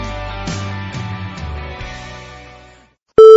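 A single short telephone ring tone, steady and loud with a buzzy edge, follows a stretch of music with descending notes that fades into a brief silence.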